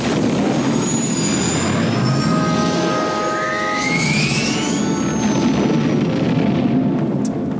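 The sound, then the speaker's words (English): The Millennium Falcon taking off in the film Solo: A Star Wars Story: a dense, steady engine roar with whining tones that climb in pitch partway through, loud and unbroken throughout. “And it's a really good gag when the Falcon takes off.”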